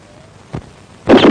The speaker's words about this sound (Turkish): Üçe kadar saydım, sonra ateş ettim. Nasıl? İşte böyle.